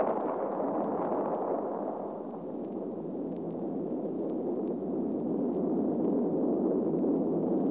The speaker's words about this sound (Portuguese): O som de 1964. A China entra para o Clube Atômico. A China recusa não fazer explodir a bomba.